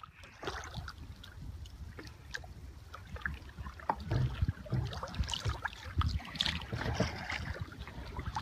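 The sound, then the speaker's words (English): Faint paddle strokes and water swishes from a two-person kayak moving through a bay, soft irregular splashes with light wind noise underneath. “Those of you who are kayakers may recognize that sound. It's the sound of a double-person kayak paddling through one of the many bays in the area.”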